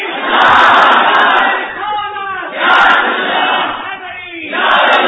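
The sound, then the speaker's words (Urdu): At a religious gathering, a crowd raises the Nara-e-Takbeer slogan in loud unison shouts. The roar comes in three swells separated by short lulls, and the last swell is cut off. “نعرہ تکبیر نہیں نہیں نہیں اس طرح نہیں اب جی اٹھ کے آپ نعرہ لگاؤ تاکہ پتہ چلے نا کہ مولوی نعرے دلوا لیں”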